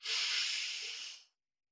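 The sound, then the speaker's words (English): A single long breath from a guided breathing exercise, an airy, steady hiss that holds for just over a second, then cuts off into silence. “Breathe in through your nose, out through your mouth, in through your nose,”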